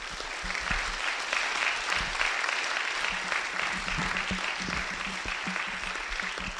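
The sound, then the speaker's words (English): Congregation applause in a church, many hands clapping together as a hand clap to God, forming a steady, even wash of moderate loudness that holds throughout. “Well, let's give a hand clap to God for the things he does.”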